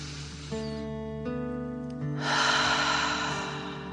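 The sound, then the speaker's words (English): A deep breath taken during a guided relaxation exercise: a broad, airy rush of breath swells midway and lingers over a sustained, steady tonal drone. “Fill up your chest and belly, deep dragon breath in and out.”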